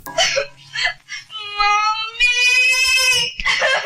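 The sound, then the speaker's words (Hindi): A girl crying and sobbing in a film drama scene: a wavering, high-pitched wail of drawn-out cries broken by choked sobbing breaths and whimpers, loud and continuous throughout. “क्या हो गया मेरी बच्ची, तू रो क्यों रही है?”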